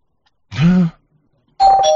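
A spoiler-alert bell sound effect: two loud chime tones like a doorbell. A lower, rounded tone comes first, then a brief silence, then a brighter, higher tone that rings on to the end.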